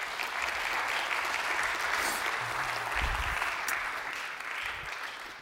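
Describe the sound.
An audience at a church student gathering applauds to welcome a speaker to the stage, with dense, even clapping that holds steady for several seconds with no break.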